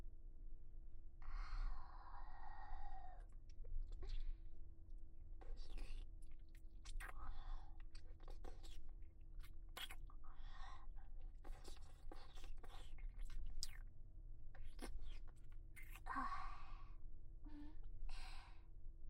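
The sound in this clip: Soft, wet mouth sounds of eating and chewing food, with many faint clicks, smacks and small crunches coming in an uneven run, no talk.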